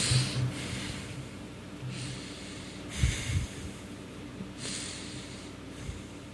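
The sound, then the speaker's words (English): Heavy, labored breathing from someone struggling to get air: a few faint, noisy breaths with a snorting, huffing quality, spaced a couple of seconds apart, with no talk. “Don't talk, just breathe.”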